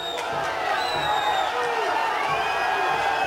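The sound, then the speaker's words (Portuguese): A football stadium crowd at a Nacional da Madeira match protests with a steady, loud mass of voices and jeers that holds at an even level throughout. “O público vai reclamando porque estava claramente...”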